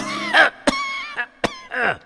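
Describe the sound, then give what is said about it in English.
A man suddenly coughs, giving five harsh, throaty bursts in an uneven rhythm. Some bursts are partly voiced, with short quiet gaps between them. “I mean, why are you suddenly coughing?”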